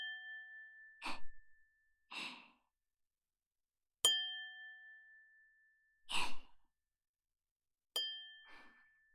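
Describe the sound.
A tokkuri, a ceramic sake bottle, is struck and rings with a clear, bright tone a couple of times, each ring fading slowly, with soft breathy sounds in between.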